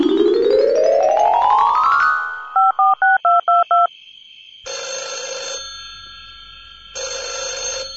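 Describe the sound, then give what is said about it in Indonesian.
Telephone dialing to call a friend: a rising tone sweeps upward, then five short beeping keypad tones are punched in a quick, even rhythm, followed by two longer buzzing ring tones separated by a pause. “Akhirnya saking bingungnya, nelpon kancane.”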